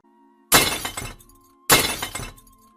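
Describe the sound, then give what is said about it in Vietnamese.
Cups of sweet soup shatter on the floor after they are dropped in a fall on the stairs. There are two loud crashes of breaking crockery, and each one trails off into tinkling scattered shards. “Sau đó là tiếng cốc vỡ loảng xoảng ở phía sau ngoài cầu thang.”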